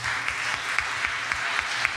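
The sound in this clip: Audience clapping at a talk on activism and nonviolence: a soft, continuous patter of many hands, with a few sharper single claps standing out at fairly regular intervals.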